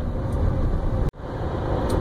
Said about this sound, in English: I'm driving to a home inspection.